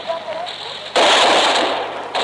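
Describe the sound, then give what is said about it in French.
Gunfire at a street barricade during the liberation of Paris: steady noise suddenly jumps into a loud, dense crackling rattle of shots that carries on without a break. “La barricade vient d'ouvrir le feu. Attention, ça tire.”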